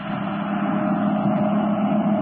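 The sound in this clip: A car driving fast along a road, heard as a steady, unbroken engine drone with a low rumble and a broad hiss that holds at an even, moderate level throughout.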